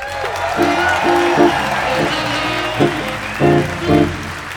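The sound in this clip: Studio audience applause and cheering welcoming two contestants on a courtroom-style show. Steady clapping sits under a loud musical sting of sustained chords.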